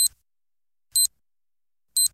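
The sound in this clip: Three short, high electronic beeps, a radio time signal marking the hour on an Albanian station. They are spaced evenly about one second apart, and each clean pip stands alone against silence.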